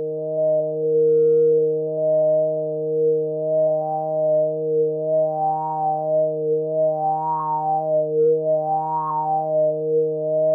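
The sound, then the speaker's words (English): Synthesizer patch with its resonance sweeping through the harmonic series, a sustained drone whose upper overtones swell and fade in slow waves, giving a flute-like, throat-singing quality over a steady low fundamental. “We played with the resonance to bring out those embedded colors in Wired, this patch, and the end result was an almost spiritual sounding sweep through the harmonic series. Let me play it for you so you hear what I mean.”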